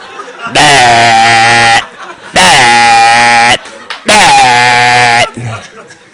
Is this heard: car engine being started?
no